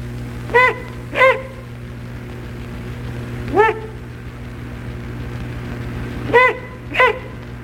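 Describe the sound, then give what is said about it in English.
Bark-like hoots from adult great horned owls near a threatened nest: five short, harsh, barking calls in uneven pairs and singles, loud over a steady low hum. “When nest or young are threatened, adults make bark-like hoots.”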